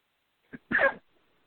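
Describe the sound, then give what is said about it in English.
A cough: a brief, sharp burst comes first, then a longer, harsher rasp of about a third of a second. It sounds alone, followed by quiet. “I'm sorry, I've got a cough.”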